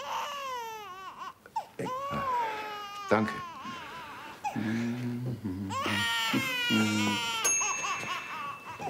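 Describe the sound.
A baby crying in wavering, high-pitched wails and sobs that rise and fall, with an adult voice speaking briefly.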